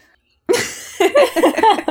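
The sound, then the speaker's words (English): Coughing: one sharp, loud cough bursts out after a short silence, then several rougher, voiced coughs follow in quick, uneven succession. “Cough, cough.”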